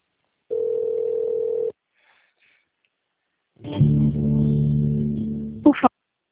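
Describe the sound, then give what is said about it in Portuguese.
A telephone line tone during a call transfer: a steady single-pitched tone lasting about a second, then after a silent pause a longer, richer buzzing tone that ends in a brief sharp burst. “Aguarde que iremos transferir sua ligação.”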